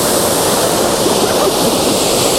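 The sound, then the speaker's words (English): A waterfall beside a river roars continuously, a loud, steady rushing wash of falling water with no breaks and no voices. “Just something that's a bit more interesting, because at the minute it's just waterfall and that's it.”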